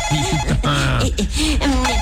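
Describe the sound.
A telephone rings with a loud, warbling, melodic ringtone whose tones bend and repeat continuously throughout.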